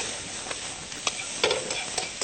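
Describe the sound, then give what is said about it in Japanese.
Stir-frying over high heat to draw out bitterness: a constant bright sizzle from the pan, broken by several sharper scraping stirs at irregular moments, with no talking. “炒めていきます。まずね、ちょっとアク抜きのために強火で”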